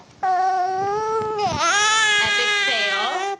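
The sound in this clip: A two-month-old baby makes phonation sounds: one sustained, crying-like voiced wail that dips in pitch midway, then carries on steadily before stopping abruptly.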